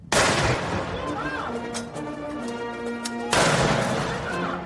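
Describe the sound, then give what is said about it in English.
Ceremonial cannons fired at a presidential inauguration ceremony in Taipei: two loud booming blasts about three seconds apart, each with a long decaying tail, with sustained tonal sound between them. “That was the sound of cannons being fired at a ceremony in Taipei”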